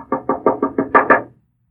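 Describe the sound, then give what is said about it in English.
Knocking on a door: seven quick, evenly spaced knocks, the last two louder, then silence. “and you said, I hear somebody knocking.”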